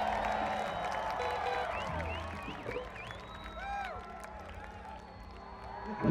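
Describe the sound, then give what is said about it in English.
A festival audience in Vegas cheers and claps, a loud crowd roar dotted with whoops and sliding whistles, with voices shouting over the noise throughout. “It's a festival audience.”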